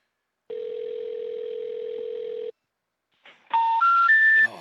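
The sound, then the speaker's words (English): Telephone tones: a steady dial tone holds for about two seconds, then after a short pause a quick run of dialing beeps follows, each tone stepping higher in pitch than the last. “Now I'm gonna call four one.”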